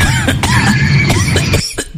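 Coughing: a loud run of harsh, raspy coughs packed closely together with rough voiced tones between the bursts, easing off briefly near the end.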